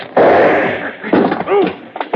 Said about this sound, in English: Shot the gun out of my hand, will you?